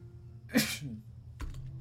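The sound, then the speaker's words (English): A single sharp human sneeze bursts out loud and breathy, then quickly trails off into quiet. “I'm about to sneeze again with that.”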